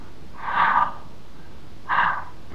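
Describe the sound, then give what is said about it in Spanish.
Breathing demonstrated aloud by a priest during a religious talk about breathing air and oxygen: two soft, breathy airflow sounds about a second apart, faint and alone without speech. “Respirar.”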